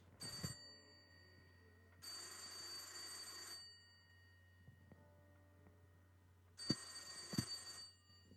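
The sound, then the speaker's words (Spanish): A telephone bell rings repeatedly in an animal shop, sounding in quiet bursts of bright metallic trilling separated by pauses of silence, with no voices. “Mientras tanto, el teléfono no paraba de sonar.”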